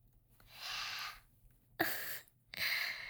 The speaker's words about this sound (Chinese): 你吸气好重啊，弄得我脚心好痒啊